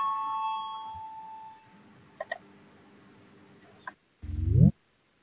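An electric bell rings in a parliamentary chamber to call members to a vote: a sustained tone fades out within the first two seconds, followed by a few faint clicks and a short, louder rising electronic tone.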